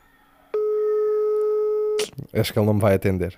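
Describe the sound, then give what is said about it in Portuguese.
A telephone ringback tone while a call is being placed: one long, steady electronic tone that cuts off abruptly, then a person speaks. “Até vou ligar. Ele não sabe. Deixa lá ver se ele me atende.”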